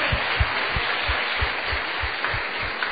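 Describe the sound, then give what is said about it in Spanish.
At a Spanish-language church service, the audience applauds two women guests. The clapping is a faint, steady patter with soft low thumps that recur throughout. “Eso, un fuerte aplauso para ellas.”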